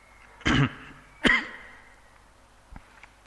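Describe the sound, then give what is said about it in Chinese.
Two short, sharp throat clears or coughs from a speaker bothered by dry weather and long talking, about a second apart, followed by a faint third catch in the throat. “不好意思，天气一干呢，讲的话讲得多就会想咳。”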